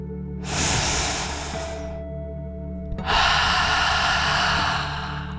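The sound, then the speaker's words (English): A deep breath drawn in and let out, as in a relaxation exercise for children: a breathy inhale of about a second and a half, a short pause, then a longer, slightly louder exhale. “let's take one final deep dragon breath in and out.”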